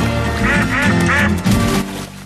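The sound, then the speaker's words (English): Ducks quacking on a pond: a few loud, nasal quacks come in quick bursts over a steady tonal background, with the last burst trailing off near the end. “which he then throws to the ducks. He attempts to break another bit off the loaf, but gives up on it as a bad job. After a moment's consideration, he lifts the loaf with both hands and hurls the whole thing into the duck pond.”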